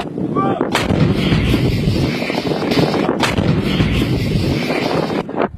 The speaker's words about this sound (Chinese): 炮兵分队以战斗队形占领发射阵地，完成前沿侦察、实弹装填、射击诸元计算等一系列战斗准备。炮班迅速对敌目标进行第一波次火力打击。